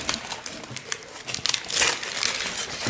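Wrapping crinkles as it is pulled off a can of jalapeño India Pale Ale, with irregular rustles and crackles that grow into a louder burst of crumpling toward the end.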